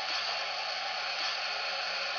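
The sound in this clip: Steam boiler blowdown, with steam venting as a loud, continuous, even hiss that holds steady without a break.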